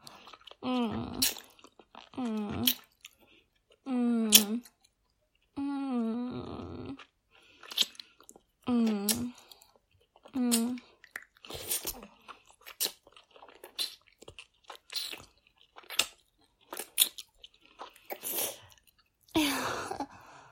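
Noisy eating with wet chewing and crunching bites, heard as a series of separate bursts mixed with low, throaty voiced sounds, repeating irregularly for about twenty seconds.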